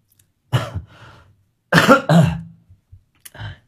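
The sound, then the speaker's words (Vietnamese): A person who is ill coughs and clears their throat in a few harsh bursts. The coughs come in uneven clusters with quiet gaps between them, and no speech is heard. “Đang ho mà.”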